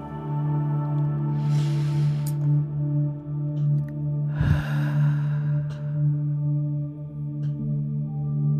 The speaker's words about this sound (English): And let's just start with taking a few deep breaths.